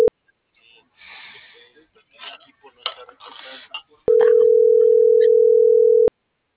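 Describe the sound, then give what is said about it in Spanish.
Telephone tones as a call is placed: a brief tone at the start, then muffled talk, followed by a steady, unbroken single-pitched line tone that holds for about two seconds before stopping abruptly. “Ya le voy a marcar.”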